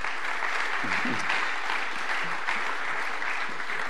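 An audience applauds to welcome a guest: steady, fairly soft clapping from many hands that continues evenly for about four seconds.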